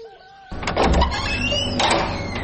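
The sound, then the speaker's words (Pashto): A door being opened: an abrupt rattling scrape followed by a drawn-out creaking squeal over a low rumble, fairly loud throughout. “دروازه خلاصه که”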